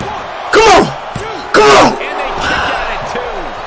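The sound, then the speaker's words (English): A German suplex slam in a WWE video game: two heavy, booming impacts about a second apart, each with a burst of shouting, over a steady crowd din. “Reverse! German suplex!”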